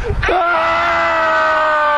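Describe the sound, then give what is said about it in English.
Group of people screaming together on cue: a loud, sustained collective scream starts sharply and holds steady to the end. “Well, two reasons I asked for a good scream.”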